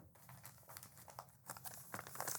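A paper envelope is handled, giving faint, irregular crinkling and rustling in many small bursts of dry paper noise.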